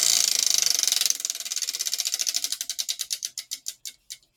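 A spinning topic wheel clicking: rapid, evenly spaced ratcheting clicks that gradually slow and spread apart, then stop as the wheel comes to rest.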